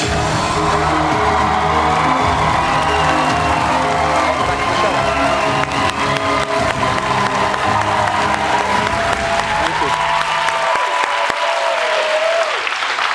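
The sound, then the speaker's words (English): A studio audience on a late-night talk show cheers and applauds: a loud, sustained roar of clapping and whoops throughout, thinning slightly near the end. “I mean, you hear the cheers.”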